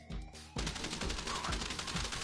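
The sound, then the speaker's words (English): Rapid gunfire in a casino heist video game: many dense automatic bursts rattle without pause, loud and harsh, starting abruptly just after a brief tonal lead-in. “Are they shooting people at us? Oh, they're shooting at me.”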